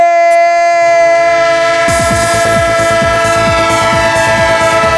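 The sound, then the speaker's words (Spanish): A train sound effect: a loud, sustained horn holds a steady chord throughout, and partway in it is joined by a rhythmic clatter of wheels rolling over rail joints. “¡Tren de Radio Estadio! Claro que sí, el tren de la radio, el tren de Onda Cero, el tren que llega a su parada final”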